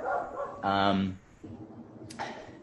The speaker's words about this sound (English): Oh, that's my dog. I'll go. He's contributing.